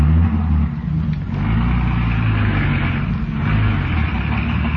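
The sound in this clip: Car engine of a wagon driving off, a steady low rumbling drone that holds fairly level throughout, with no talk over it.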